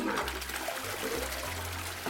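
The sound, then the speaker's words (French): Toilet flushing, with a loud, continuous rush of water and gurgling that holds a steady level throughout the short clip. “On tire la chasse et tout s'en va, sans odeur, sans problème.”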